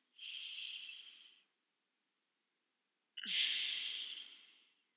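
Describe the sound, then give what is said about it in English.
Two slow, airy breaths during meditation, each a long soft hiss that swells and fades, separated by a silent pause of under two seconds. “As I breathe in,”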